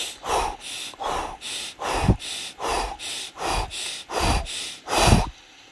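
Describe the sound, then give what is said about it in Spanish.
Rapid hyperventilation breathing done as a breathing technique: many loud, forceful breaths in quick succession with an even, pumping rhythm, heard alone without talk. “haz una técnica que, que se llama hiperventilación. Respira 20 veces así.”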